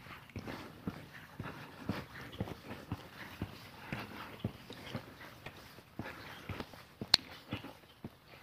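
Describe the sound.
Footsteps of someone walking outdoors: many soft, evenly spaced steps in a steady rhythm, faint throughout, with one sharper click near the end.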